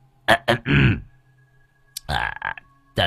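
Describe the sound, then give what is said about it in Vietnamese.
A man clears his throat with two short rough bursts and then a longer gravelly rasp, followed after a pause by a few more short throaty vocal sounds. “ông hắng giọng.”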